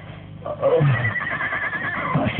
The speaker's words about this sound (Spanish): Reanuda el avance, acercándose hacia los caballos. Las bestias reaccionan nerviosas ante su presencia.